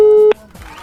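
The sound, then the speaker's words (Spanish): A telephone call being dialed gives a single steady electronic tone that holds briefly and then cuts off with a click, followed by faint line noise. “voy a hacer una llamadita a ver si me contestan por ahí, a ver si alguien me contesta”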